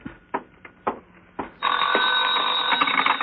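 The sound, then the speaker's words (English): A telephone bell rings steadily after a few sharp knocks. The ring is a loud, continuous trill that holds to the end. “That's the phone.”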